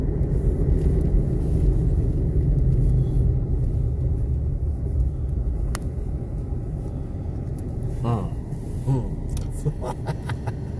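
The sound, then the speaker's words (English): A truck approaching and turning gives a continuous low engine rumble that is a little louder in the first few seconds. The rumble carries on steadily, with a few faint clicks near the end. “Yep, there's a truck coming. And he's turning.”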